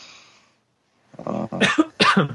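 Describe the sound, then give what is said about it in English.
A short series of loud, throaty coughs, with one rasping and voiced, coming after a brief quiet gap. “Cough.”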